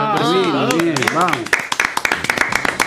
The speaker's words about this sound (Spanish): Un aplauso para